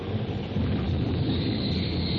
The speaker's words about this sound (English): Finally, with one mighty clap of rolling thunder, the tornado spends itself in a last effort.